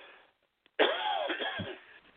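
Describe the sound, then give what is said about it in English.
A person coughs and clears their throat with a sudden harsh burst, then a rough, raspy rasp of about a second and a half that tails off, with no talk over it. “Excuse me, I got a catch in my throat.”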